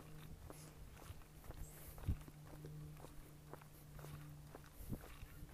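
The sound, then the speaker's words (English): Footsteps of a character walking in a roleplay video game, many soft, evenly paced steps kept at a low level over a faint, steady low tone. “That looked like a run to me, bro. Going on a walk.”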